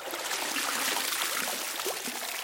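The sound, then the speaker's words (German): Water streaming and splashing as a person climbs out of a bathtub, a steady, fairly loud rush of running and dripping water with a few small splashes and no voices. “Und ich empfehle mich jetzt aus der Wanne und gehe ans Klavier.”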